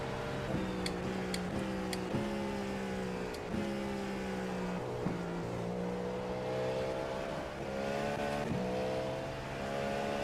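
A race car engine roars steadily on a track, loud and continuous, with its pitch dropping and climbing again at repeated gear changes throughout.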